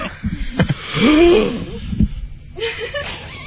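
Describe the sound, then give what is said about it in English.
A person blows out candles on a birthday cake: one sustained, breathy blow with a thin, strained vocal squeak, set among a few shorter puffs and breaths. “That's all the air I had. One more candle, I'd have been out.”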